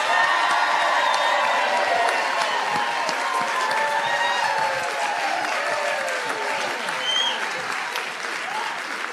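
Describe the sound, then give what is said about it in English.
A live studio audience in a sold-out theatre applauds and cheers, a dense, sustained wash of clapping with scattered whoops and shouts rising through it, loud and steady across the whole stretch. “live from the Linda in downtown Albany before a live studio audience. How can you tell? Because they sound like this.”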